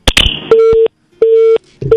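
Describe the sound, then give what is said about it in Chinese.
A telephone busy tone after a dropped phone line during a call-in segment. A sharp clicking crackle comes first, then a steady mid-pitched tone beeps loudly on and off in even short pulses, with the last pulse cut off. “我们的这个电话线掉了哈，有请我们的导播重新连线一下。”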